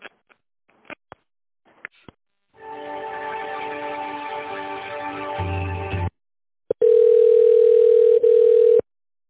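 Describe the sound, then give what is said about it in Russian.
Telephone line tones as a call is transferred to an accounting department: a few short clicks and beeps, then a sustained buzzing tone, then a steady, clear continuous tone with one brief break, no voices. “Сейчас давайте я вас переключу на бухгалтерию.”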